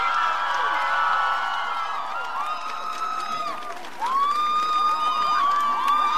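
A concert crowd applauding and cheering as a drummer is introduced. Sustained clapping noise mixes with many high whoops and whistling cheers that rise and bend in pitch, loud and continuous throughout.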